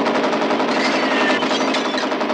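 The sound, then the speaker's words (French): A machine gun in front of a German headquarters fires sustained, rapid, dense automatic bursts that stay loud throughout. “Il y a une mitrailleuse, juste devant le quartier général allemand.”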